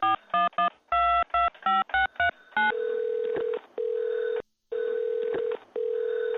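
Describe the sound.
Touch-tone keypad beeps dial a taxi service number, about a dozen quick tones in an uneven rhythm, then a steady repeating ringing tone sounds on the line.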